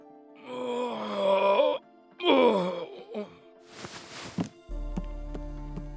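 An injured man groans in pain in two long, drawn-out moans followed by a shorter groan, then a breathy rasp and low background hum.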